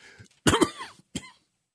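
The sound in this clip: Coughing and throat clearing after choking: a faint throat rasp, then a loud, harsh, rattling cough burst and a shorter final cough, with no talk.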